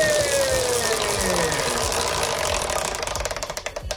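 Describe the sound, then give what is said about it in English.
A prize wheel spun during a money quiz game, with a continuous whirring rattle that breaks into separate clicks slowing toward the end. “You want me to give the wheel a spin? Yeah. A big spin or a little spin? Big, please. Here we go.”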